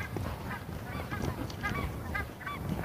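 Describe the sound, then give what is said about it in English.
Geese honk in a loose, continuous series of nasal calls, many honks overlapping over a steady background noise for three seconds, with no talk. “Ooh, here geese.”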